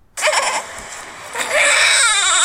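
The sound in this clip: A newborn baby cries, recorded on a phone video. A thin, high-pitched cry starts abruptly and continues without pause, growing louder and brighter in the second half.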